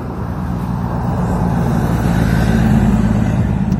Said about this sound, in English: There's a fire truck. With no lights on this time.